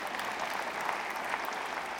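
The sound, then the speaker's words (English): Polite applause from a church audience, soft and steady clapping from many hands at a low, even level for a couple of seconds. “And you kind of give me that polite applause, you know, like, oh, that's just a story preachers tell.”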